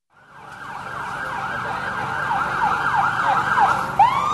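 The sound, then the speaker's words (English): Emergency vehicle sirens wail in a neighborhood near downtown Binghamton, New York: a loud, sustained siren fades in and sweeps up and down repeatedly, joined near the end by a sharper rising yelp. “Friday afternoon, emergency vehicles were still out in force in this faded neighborhood not far from Binghamton's downtown.”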